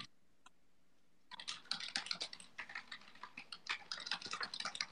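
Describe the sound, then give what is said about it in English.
Typing on a computer keyboard: after about a second of near silence, a quick, uneven run of many key clicks starts and continues to the end, fairly quiet overall. “I am the keyboard warrior. I am typing in to the thing and letting them know,”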